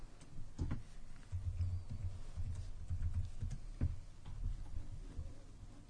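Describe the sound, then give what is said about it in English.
Typing on a computer keyboard: quiet, irregular clicks and taps in uneven bursts over a low background hum, with no talk. “Maybe if I type it in that way.”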